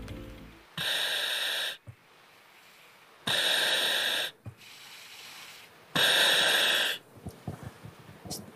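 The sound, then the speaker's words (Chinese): A firefighter in full turnout gear breathes through a breathing apparatus mask: three long, loud airy hisses, each lasting about a second, alternate with quieter, softer breath sounds between them. “我只想给大家听一个声音，就是他现在戴上这个呼吸机时候的声音，我们来听一听啊。”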